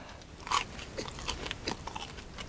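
Someone bites into a custard-filled cream puff: one distinct soft crunch, followed by a few fainter crackles and quiet chewing sounds.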